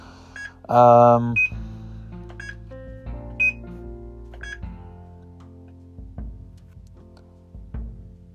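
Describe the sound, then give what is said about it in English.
Short, high electronic beeps from the alarm of a Braille notetaker device, repeating at roughly regular intervals, fairly faint beneath a speaking voice. “As you can tell, that's the alarm of the Braille note in the background.”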